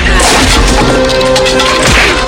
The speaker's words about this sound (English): Chance kicks Fouchon backwards, then lands a punch while gripping the grenade.